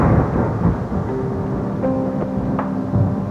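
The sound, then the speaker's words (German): Thunder rumbles as a storm gathers over a valley: a deep, continuous roar that stays loud and unbroken throughout, with no voices. “Über dem Tal zog ein Gewitter auf.”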